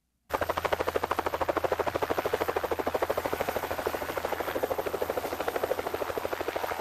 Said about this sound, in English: That's the helicopter flying away, leaving me in the middle of the wide-open tundra on the north slope of Alaska's Brooks Range, about 140 miles south of the Arctic Ocean.